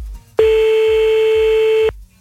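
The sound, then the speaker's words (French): A telephone call is placed again, marked by a single loud, steady, mid-pitched telephone tone that holds for about one and a half seconds and then stops abruptly, with no talk. “Attends, on va le rappeler.”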